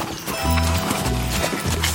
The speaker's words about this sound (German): Manche nennen unser Tier Equus caballus.